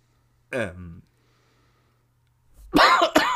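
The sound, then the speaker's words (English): A person coughs once in a short, rough, voiced burst. Silence follows, then a voice starts talking. “you've been coughing hard this episode. Do you want to mute yourself and get a drink of water?”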